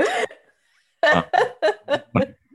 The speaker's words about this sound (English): I'm not crying, I'm burping.